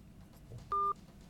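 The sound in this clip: A single short telephone beep on a radio phone-in line, a clean steady tone lasting about a fifth of a second over faint low background hum.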